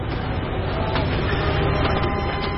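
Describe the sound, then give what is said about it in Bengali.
A departing train makes a loud, continuous rumbling roar that stays steady and unbroken from start to finish. “Train ছাড়ল”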